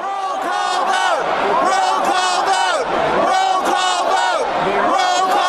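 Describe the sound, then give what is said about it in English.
Several hundred anti-Trump delegates shout together at the Republican National Convention in Cleveland, pushing for a rules change. A dense mass of loud voices carries on without a break, with rising and falling cries layered on top. “That was the sound of several hundred anti-Trump delegates at the convention seeking to change the convention rules in order to register votes against his candidacy.”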